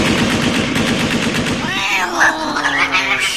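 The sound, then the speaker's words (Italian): Automatic fire from an AK-15 rifle, 200 shots loosed into the air, a loud, fast, continuous stream of shots that stops partway through, followed by a wavering tonal whine. “Tieni, spara 200 colpi in aria con questo AK-15.”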